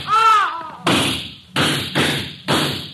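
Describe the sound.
Three gunshots from a gun, each a sharp, loud blast with a rough decaying tail, spaced under a second apart with short gaps between them.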